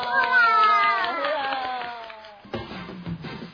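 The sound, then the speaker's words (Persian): Clapping follows a sung phrase whose pitch glides downward, and the singing gives way to a short, uneven burst of a few hand claps near the end. “یاد گرفتن یه دست و یه هورا.”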